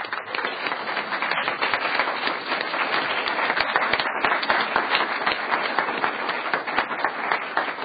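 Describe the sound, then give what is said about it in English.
Audience applause welcoming a high school senior at a presentation: dense, steady clapping that stays loud and even from start to finish without a break. “Let's give him a hand.”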